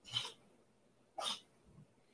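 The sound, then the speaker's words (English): A cat sneezes twice, about a second apart. Each sneeze is a faint, short, breathy burst in an otherwise quiet stretch. “If you hear sneezing, it's my cat behind me. Cats don't sneeze. This one does. He sneezes.”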